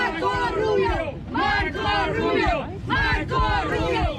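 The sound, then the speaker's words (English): Cuban Americans in Miami cheer and shout in loud voiced surges. The crowd rises in about three waves with brief dips between them, and individual shouts and calls blend into the roar. “Some Cuban Americans in Miami cheered him.”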